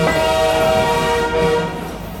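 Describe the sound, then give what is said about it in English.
A special passenger train sounds its horn, a sustained chord over a low rumble, as it sets out for the annual Peanut Festival in Plains, Georgia. The horn holds steady, then eases slightly toward the end. “PB's Sophie Gratis spoke to passengers aboard a special train about President Carter's legacy while en route to Carter's hometown for the annual Peanut Festival. The Peanut Express stands ready to go.”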